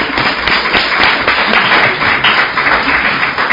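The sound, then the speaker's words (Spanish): Audience applause, a dense and loud wash of many hands clapping that stays fairly even from start to finish with slight swells. “yo haría un aplauso mucho más grande por si acaso se le ocurre pintar al público”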